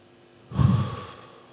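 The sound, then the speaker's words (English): A single audible breath, a soft breathy rush that rises abruptly out of quiet and fades away over about a second. “Notice what happens when we breathe.”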